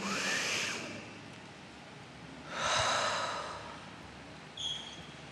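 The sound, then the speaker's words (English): A deep breath, heard as two long, soft, airy breath sounds with a short pause between them and a faint puff at the end, without talk. “And take a breath again.”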